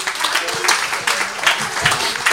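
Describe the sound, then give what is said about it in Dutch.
Steady, dense applause for a visiting alderman and acting mayor at a family radio event, with a voice talking over the clapping. “Geef hem een davendapplaus, Erik Verbeuren.”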